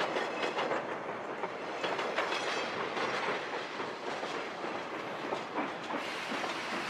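Train running on rails as a sound effect: a steady, dense rumble with a continuous clickety-clack of wheels, even in loudness throughout and with no voices.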